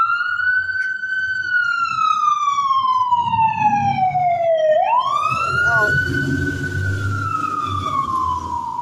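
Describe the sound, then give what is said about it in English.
A fire engine siren wails as it drives by. Its loud tone slides slowly downward, then jumps and climbs again, over a low rumble of road traffic. “It's a fire department. Wasn't even the police.”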